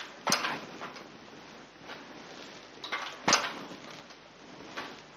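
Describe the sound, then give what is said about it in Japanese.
Mechanical clacks of a type casting machine as the mold opens and drops out a piece of metal type, two sharp clicks about three seconds apart over a quieter running mechanism with softer knocks between. “鋳型が開くことによって活字がリリースされまして、ここに1本コロンと出てくるということになります。このように1回転する間に1本活字が出来上がっていきます。”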